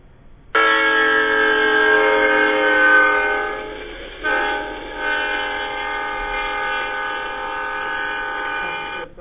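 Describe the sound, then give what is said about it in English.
A passing train sounds its horn in a long, loud, steady chord of several tones that drops slightly in pitch partway through as the Doppler effect takes hold, then holds on for several more seconds. “Missed the first few seconds of it, so we'll just start it again. It's, as Brendan says, it's the Doppler effect.”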